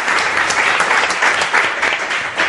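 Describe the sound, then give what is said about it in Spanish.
Applause from an audience greeting a guest on a radio programme, a dense steady clatter of many hands clapping at full strength throughout, with no talking. “Ese aplauso es para una persona queridísima por todos los oyentes y por todos los que hacemos el programa La Rosa de los Vientos, Escribano.”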